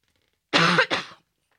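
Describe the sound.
Two quick, rough coughs in close succession from a person with a tickle in the throat, the first slightly longer than the second, sounding alone against silence.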